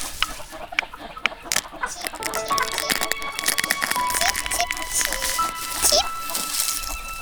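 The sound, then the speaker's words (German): A chick pecks from inside an egg, heard as a few sharp taps, followed by chicken-like clucking and thin, high tonal calls over a steady rustling background. “Es pickt von innen. Sollte da tatsächlich ein Küken drin sein?”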